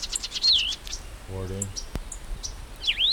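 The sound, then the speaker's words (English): Bird chirps: a few short, high, sweeping whistled calls from two birds, clustered near the start and again at the end, over a quiet, steady background hiss. “Two birds.”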